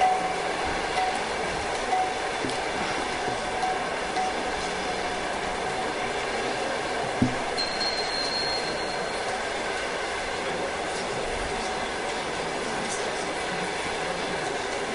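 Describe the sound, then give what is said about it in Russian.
A passing train gives a steady, dense rumble of rolling wheels and cars that holds at an even loudness throughout. A single brief clack stands out partway through. “Сейчас поезд проедет.”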